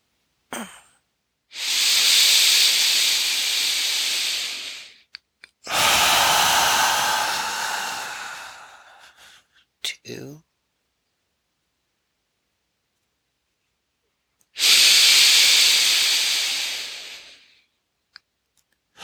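Three long, slow exhales in a guided breathing exercise, each a loud, airy hiss lasting several seconds, are separated by quiet pauses with a few faint clicks.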